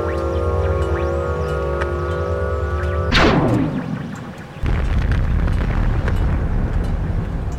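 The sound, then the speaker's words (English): A cartoon explosion destroys a city: a steady tonal drone is cut off by a sudden loud blast. The blast dies down briefly, then gives way to a dense, continuous roaring rumble. “Downtown has gone kablooey!”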